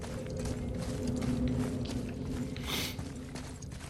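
A bridge-opening mechanism in a video game gives a steady mechanical grinding rumble with creaking, ratchet-like texture and a brief hissing burst near the end, with no talk over it.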